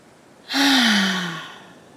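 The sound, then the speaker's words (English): Slow exhale with a voiced sigh during a guided breathing exercise: a breathy rush starts abruptly, carrying a low hum that slides gently downward in pitch, then fades over about a second, alone and without words. “breathe out, I want you to make a sound. So go ahead, breathe in slowly. Now breathe out.”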